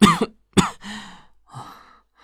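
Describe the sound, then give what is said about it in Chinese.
A woman coughs from an illness of several days, brought on by a sudden chill: two sharp, loud coughs, then softer, rasping, breathy sounds as the fit eases. “婉被玉社身上带来的寒意引得咳了起来”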